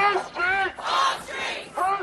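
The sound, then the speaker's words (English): Counter-protesters chant in the street outside immigration lawyers' offices, many voices shouting in unison. The slogan comes in rhythmic, repeated bursts with short gaps between them. “Carrying signs saying refugees welcome and chanting, whose streets are streets? People turned out in force to protect asylum service centres and the offices of immigration attorneys.”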